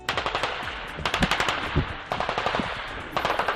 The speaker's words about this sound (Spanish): Este es el sonido de una guerra de la que nos hemos olvidado, una guerra en Europa y que en cualquier momento puede ir a más.